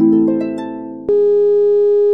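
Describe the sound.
A phone tone sounds after a call is hung up: a steady electronic tone with a faint hum under it, then a sharp click, then a single louder tone that holds evenly to the end.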